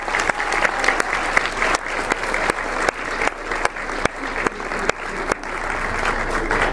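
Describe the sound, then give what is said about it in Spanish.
An audience applauds at a political conference as a deputy receives recognition. The clapping is dense and continuous, with a series of sharper, louder individual claps standing out at irregular moments, and no voices are heard over it. “El diputado Noroña, por favor, un fuerte aplauso.”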